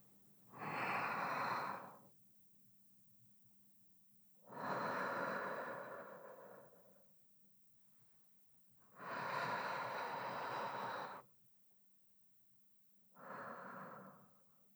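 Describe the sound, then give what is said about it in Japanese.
Slow, deep breathing with long, thin exhales helps someone calm down before a massage. Four soft, breathy hisses come at even intervals with quiet pauses between them, and no voice is heard. “深呼吸するときはね、細く長く息を吐き出すようにするといいんだって。”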